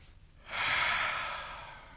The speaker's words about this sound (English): Deep breaths.